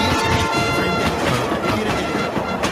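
A train sound effect played by mistake: a steady, dense rumble of rail clatter that stays fairly loud for the whole clip, with no voices over it.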